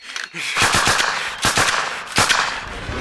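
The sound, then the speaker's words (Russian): Automatic rifle gunfire rattles through a forest scene in a film, three rapid bursts of sharp, crackling shots separated by short pauses, loud and harsh. “Оглядевшись, поднимает автомат в сторону леса.”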